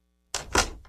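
A door lock is being locked, with a few short, crisp mechanical clacks after a moment of silence as the bolt snaps into place.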